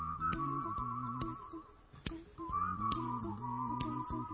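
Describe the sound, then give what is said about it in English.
A church audience whistling together with vibrato, a sustained, wavering high tone that holds and shifts pitch slightly, broken by a few sharp knocks, with no talking. “Let's see how well you can whistle. Add a little vibrato in there.”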